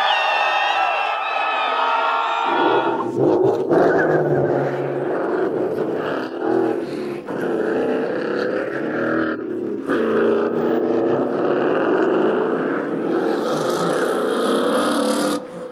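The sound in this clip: Modified Ford Mustang GT engines with nitrous roar loudly and continuously as two builds race head to head in a quarter-mile drag race, mixed with crowd cheering and voices.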